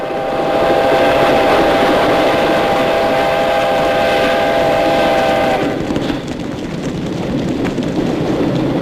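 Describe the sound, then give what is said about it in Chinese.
An enemy munitions train runs on the rails with a continuous, loud rolling rumble. A sustained whistle-like tone sounds over the first part and then stops while the rumble carries on. “他们用敌人的军火列车炸毁了临城车站”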